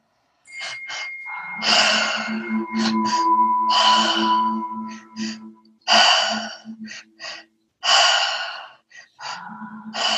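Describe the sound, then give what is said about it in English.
Deep breathing in through the mouth and out again, with several loud, breathy inhales and exhales, some sharp like gasps, separated by short pauses over a soft sustained tone. “Big inhale through the mouth, into the belly, into the chest. Exhale, let it go.”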